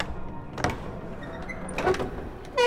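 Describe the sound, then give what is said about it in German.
An old door creaks on hinges it barely hangs from: a few dull knocks and scrapes, then a brighter, squealing creak rises sharply in loudness right at the end. “Die Tür hält sich kaum in den Angeln.”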